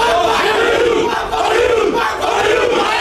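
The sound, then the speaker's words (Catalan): The Castelló football team's dressing room erupts in dense, loud group shouting and chanting, a continuous wall of voices with a few rhythmic swells. “Sentim l'ambient del vestuari del Castelló.”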